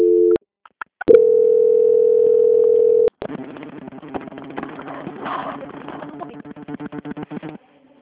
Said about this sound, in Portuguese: eu vou transferir essa ligação para o setor de qualidade do banco, que dará continuidade na sua contratação, tudo bem? Tudo bem. Eu agradeço, tenha um bom dia, só permaneça em linha. Transferência.